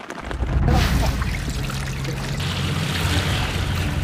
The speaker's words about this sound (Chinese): 受长江以北大部分地区强降温天气影响，雨水开始光临考古工地。